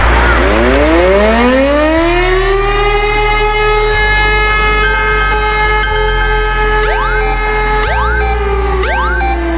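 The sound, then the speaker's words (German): A civil defense warning siren tested on a nationwide warning day in the Landau-Neustadt area: a loud, continuous wail that climbs and holds, then a few quick rising sweeps near the end over a steady low drone. “Na, schon erschrocken? So oder so ähnlich klingt es morgen auch bei uns. Es ist nämlich mal wieder bundesweiter Warntag und in Landau-Neustadt”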